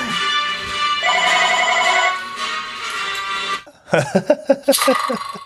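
A telephone ringtone plays a steady electronic tonal pattern for a few seconds, then cuts off into a run of short, choppy sounds.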